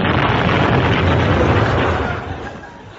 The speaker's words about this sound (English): Was that you that just exploded? Yep, that's me all over.